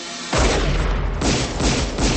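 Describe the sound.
Gunfire in a drama scene as a man shoots a kidnapper on the street: a loud, dense burst of booming shots with several heavy onsets, roaring on without a pause to the end.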